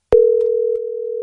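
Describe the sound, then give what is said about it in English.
A telephone tone sounds as a radio station calls a listener: one steady, low electronic tone that starts abruptly and holds unbroken for over a second. “Let's make a phone call to one lucky texter.”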